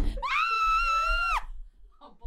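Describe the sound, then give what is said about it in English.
A person's scream, high and piercing, rising quickly then held steady for about a second before cutting off, followed by a few faint, scattered sounds. “No, I'm screaming for you right now.”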